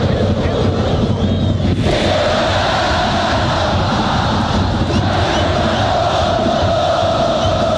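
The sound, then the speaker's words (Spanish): Fans at a Copa Chile football match at Estadio Santa Laura, with Colo Colo playing, make a continuous broad roar. The crowd noise stays steady and loud throughout, with no clear peaks. “Pastrán se le escapa el balón y escuchamos al público acá en el Santa Laura.”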